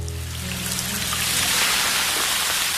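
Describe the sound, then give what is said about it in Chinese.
Raindrops strike the eaves of a roof in a steady, dense hiss of patter that stays even and fairly loud throughout, with no voices. “雨滴敲击屋檐的声音，撞进空气的声音”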